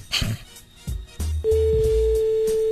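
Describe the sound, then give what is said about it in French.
Telephone ringing tone on an outgoing call to a mobile number: a few low knocks and clicks, then a steady, pure mid-pitched tone that starts abruptly and holds unbroken to the end. “Ça sonne.”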